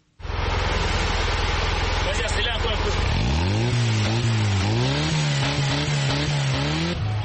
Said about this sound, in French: Cédric ne passe pas inaperçu lorsqu'il parcourt les rues de Bafoussam au volant de sa pick-up. Fabriqué à partir de pièces recyclées, le petit camion bleu attire beaucoup de regards